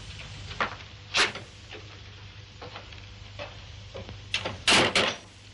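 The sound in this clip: Door sounds as someone leaves a house: a series of soft knocks and clatters, faint at first, then a cluster of louder, sharper bangs near the end.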